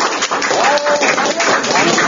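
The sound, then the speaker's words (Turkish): An audience applauds to welcome a participant up to the front at a live demonstration, brisk, steady clapping with a voice briefly heard over it. “Alkışlarla alalım arkadaşı buraya.”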